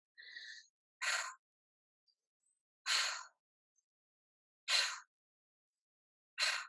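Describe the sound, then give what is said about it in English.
Deep belly breathing, in through the nose and out through the mouth, comes as a breathy whistling draw followed by four forceful airy bursts, evenly spaced about two seconds apart, with silence between them. “we're going to be inhaling through the nose, sorry, and exhaling through the mouth. So it's going to look like this.”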